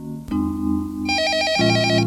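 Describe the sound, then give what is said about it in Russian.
An electronic telephone ringtone sounds as a brief, bright warbling burst of tones over steady low sustained tones, fairly loud and with no voices. “но тут звонок”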